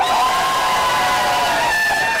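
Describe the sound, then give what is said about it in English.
Audience cheering and clapping on cue at a count of three, a brief loud burst of shouts, whoops and applause that holds steady for about two seconds. “my three, a big applause. 1, 2, 3.”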